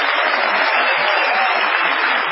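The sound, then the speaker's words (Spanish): A theatre audience gives an ovation for a performer, a steady, dense wash of clapping with a thin, muffled quality that stays constant throughout. “Saludemos, por favor, con una ovación inolvidable al artista llamado Patricio Bartón.”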